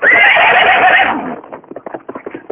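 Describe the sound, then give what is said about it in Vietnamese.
A horse stabbed in the rump with a sword lets out a long, loud, strained whinny, which gives way to a run of quick hoofbeats as it bolts away. “bèn giơ kiếm đâm vào mông con ngựa một cái. Con ngựa hí một tiếng dài, đi như bay.”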